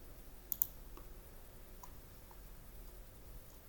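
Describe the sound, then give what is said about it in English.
Computer mouse clicks while filling in an online application form: two sharp clicks close together near the start, then a few much fainter ticks over a quiet background. “So I click no. Okay, I click here.”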